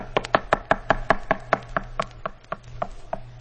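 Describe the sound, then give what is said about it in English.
Knocking on a door: a quick, fairly even series of many sharp raps, moderately loud and alone, with no voices. “But one day, somebody knocked on the door.”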